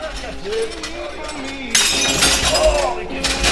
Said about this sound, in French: J'ai cassé une tripotée d'assiettes.